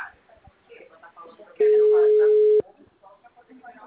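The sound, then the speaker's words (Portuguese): A telephone line tone sounds while a call is being placed. It is a single steady, mid-pitched beep lasting about a second, loud and clear, with people talking quietly before and after it. “Eu tô tentando ligar.”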